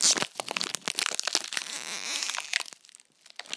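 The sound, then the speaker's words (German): Plastic crinkling and crackling in rapid, irregular bursts, loud at first, continuing densely, then thinning out and growing quieter toward the end, with no talk. “Und falls ihr jetzt Plastik hört, warte, ich mache jetzt gleich ein ASMR.”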